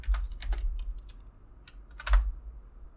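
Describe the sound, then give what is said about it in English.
Computer keyboard typing as a name is entered into a search. A few quick clusters of crisp, clicky keystrokes are broken by short pauses, over a faint low hum. “I've heard that it's, what's her name, something West. Let me type it in.”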